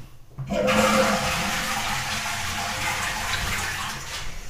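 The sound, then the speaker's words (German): Water running into a sink, a loud, steady hissing rush that starts abruptly after a moment of quiet and continues unbroken to the end. “Das war eine Spüle.”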